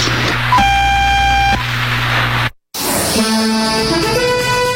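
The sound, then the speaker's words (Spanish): A radio time signal tone from a naval observatory in Caracas, Venezuela, marking 19:00: one steady electronic beep lasting about a second over hissy, humming static, then a short dropout followed by busier tonal sound. “Al oír el tono serán las 19 horas, 0 minutos, 0 segundos.”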